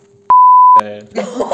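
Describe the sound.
A single censor beep, a steady high pure tone lasting about half a second, cuts in sharply and is followed by a voice speaking.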